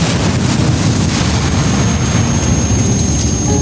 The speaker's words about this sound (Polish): Silnik zaryczał wściekle, zaskrzyczała skrzynia biegów.